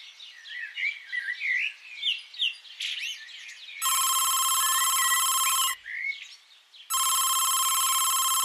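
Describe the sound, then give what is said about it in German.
A telephone rings with an incoming call: two long, bright electronic ring bursts separated by a short pause, following several seconds of chirping birdsong that also returns in the gap between rings. “Ein paar Wochen später ruft Steffi mich an.”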